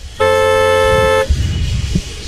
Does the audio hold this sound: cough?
no